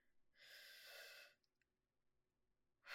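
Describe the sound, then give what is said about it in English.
A single deep inhale, a long airy hiss lasting about a second, then near silence before another breath begins right at the end. “Okay, stopping. Breathe in.”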